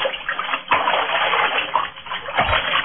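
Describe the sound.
Water splashing and sloshing in a bathtub during a rinse, a steady loud wash of water that swells with a couple of stronger surges.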